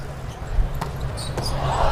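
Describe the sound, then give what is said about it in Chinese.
Volleyball serve during a match: two sharp, brief thuds about half a second apart, over a steady low background murmur and hum. “好发球！”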